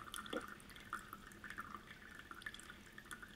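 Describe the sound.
Water dripping out of a LifeStraw filter: many small, irregular drips and trickles, faint and uneven in rhythm, with no voices.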